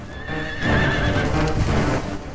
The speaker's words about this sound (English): The sheriff's men gallop past.